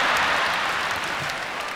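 An audience claps at a stand-up comedy show, a dense, continuous patter of applause that stays fairly even and eases slightly toward the end.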